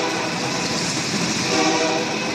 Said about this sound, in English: You can hear the train in the background.